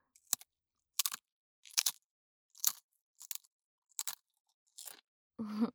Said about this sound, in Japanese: こっちはギザギザ、 なんとあのサワークリームオニオン。 こうやってギザギザな線に沿って、